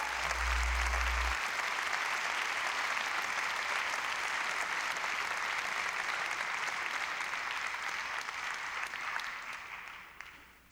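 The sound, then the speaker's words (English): Audience applause welcomes a singer-songwriter to the stage: dense, steady clapping that holds evenly for about ten seconds, then thins and fades at the close. “So please put your hands together and give a great, great welcome to singer-songwriter Robbie O'Connell.”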